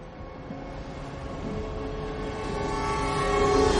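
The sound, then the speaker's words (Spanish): Subway train rumbling through a metro tunnel, a dense, steady roar that slowly grows louder, with thin tonal whines running through it toward the end. “Imágenes de un túnel de metro.”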